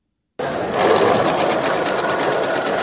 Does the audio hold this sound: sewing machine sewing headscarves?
yes